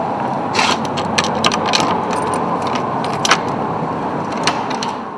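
A key turns in the locked front door of the Listowel Arms hotel, giving a few sharp metallic clicks and rattles over a steady rushing background noise.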